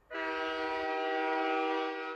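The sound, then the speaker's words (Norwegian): A train horn on a railway blows one steady, sustained, loud tone for about two seconds, alone without other sounds. “Hjulene til jernbanen er i gang.”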